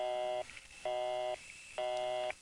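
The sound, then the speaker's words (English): A telephone busy signal sounds after a number is dialed: three even buzzing tone pulses of the same pitch, separated by short silent gaps. “Oh, busy. I know Murray Hill 40098 is busy.”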